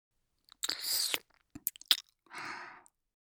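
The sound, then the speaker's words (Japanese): Crisp, close biting and chewing sounds: a long crunchy bite, then a few short wet clicks, then another crunching burst, separated by silence, with no talk. “もう一度噛んであげる。”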